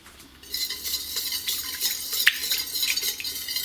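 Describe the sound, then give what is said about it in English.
A utensil stirring raw honey into a mixture, heard as a quiet, continuous scraping and swishing with a few light clinks. “Then add 1/4 cup of honey. Now I'm using raw honey straight from the hive. It's better for you. It will be healthier. So once you've added that, stir this in.”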